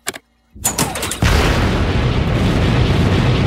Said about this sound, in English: In space camp, we learned about countering forward momentum with retro rockets. If we use them now, the ship might slow down enough for gravity to pull us out of orbit.